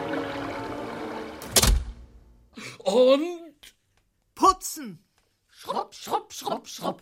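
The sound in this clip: Windows are slammed shut: a sliding rumble leads into a single sharp, loud thud, and short bursts of voices follow.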